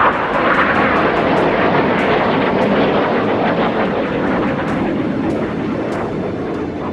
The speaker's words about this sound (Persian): جنگنده‌های F-16 در کنترل کودتاچیان برای ایجاد رعب و وحشت در میان مردم، پروازهای ارتفاع پایین را بر فراز آنکارا آغاز کرده بودند.